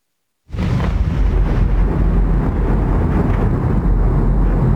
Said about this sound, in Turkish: Rus ordusu Kiev'i vurdu, patlama sesleri peş peşe yükseldi.